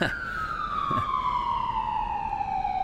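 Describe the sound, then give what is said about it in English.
An ambulance siren passing on a New York street: one loud, continuous wail that glides steadily downward in pitch across the whole clip, carrying bright overtones above a dense background rumble. “Yeah, it's an ambulance.”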